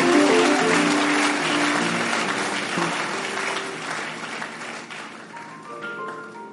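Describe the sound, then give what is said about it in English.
A church audience claps hands during a service, a thick wash of steady clapping that starts loud and gradually thins and fades over several seconds. “Let's give the Lord a mighty clap. Can you clap your hands and give God the glory?”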